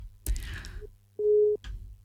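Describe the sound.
A telephone line tone signals an incoming call on a phone-in line: a single steady, mid-pitched beep of about a third of a second, set between short bursts of other noise.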